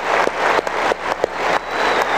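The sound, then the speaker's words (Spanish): Applause from attendees taking notes during a political lecture. The clapping swells in repeated waves, with a few sharper accents punctuating the steady patter. “Vamos a darle un aplauso allá, les doy un aplauso a todos que están tomando nota.”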